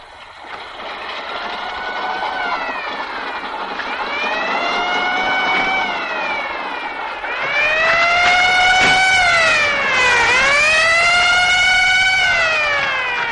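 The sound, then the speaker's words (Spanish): Police van sirens wail in repeated rising and falling sweeps as the vans arrive in a 1961 Spanish thriller film. A second, louder siren joins midway over a low vehicle rumble. “Alberto camina por el paseo mientras los furgones de policía van llegando.”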